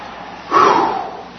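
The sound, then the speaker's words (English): A single big breath, a breathy rush of air that swells suddenly, holds for about half a second, then tapers off over a faint background hiss. “That's a big breath.”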